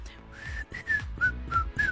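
A person whistles a short tune of a few clear, bright notes. The pitch steps up and down from note to note, and the whistling is moderately soft and heard alone.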